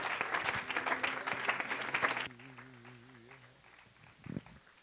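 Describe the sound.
A church audience applauds a guest preacher arriving at the pulpit for a morning service. A burst of lively clapping lasts about two seconds, then cuts off sharply and leaves a much quieter stretch.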